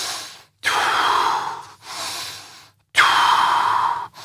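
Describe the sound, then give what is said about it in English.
Air is blown out forcefully through slightly closed lips in three long, hissing breaths with brief gaps between them. The first and last breaths are loudest and the middle one is softer, with no talk over them. “the way you're blowing out there, you're sort of blowing out forcefully through slightly closed lips.”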